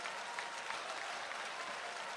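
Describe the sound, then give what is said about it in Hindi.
Soft, steady audience applause at a poetry recital, welcoming a poet to the stage. Dense clapping holds at an even, quiet level throughout with no voices on top. “आपकी तालियां यहाँ तक पहुँचेंगी।”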